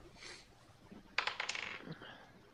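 Dice roll across a table for a history check in a tabletop role-playing game, making a brief rattling clatter of several quick hits that tumble and settle. There is no talk over it.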